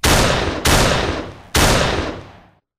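Three loud, booming gunshots, each a sharp blast trailing off in a long, rumbling decay, the second arriving quickly after the first and the third after a slightly longer pause before the sound fades out.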